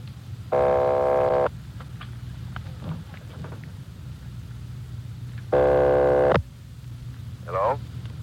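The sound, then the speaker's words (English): A telephone line rings with a buzzy, steady ringing tone in two bursts of about a second each, separated by a pause of several seconds, over a faint hissing line with a brief muffled voice near the end. “Keep ringing, 761. They're ringing the number, Sergeant.”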